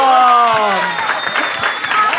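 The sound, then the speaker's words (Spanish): Audience applause and cheering for a man who has just passed a hip-moving dance challenge: a loud voice shouts at the start, then a thick burst of clapping that gradually thins out. “¡Hombres, un aplauso para este guerrero!”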